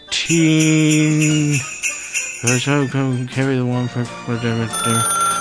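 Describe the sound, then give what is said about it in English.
An incoming phone call rings with a loud electronic tone: one long sustained buzz, then a series of short pulsed notes. “We got a phone call, though.”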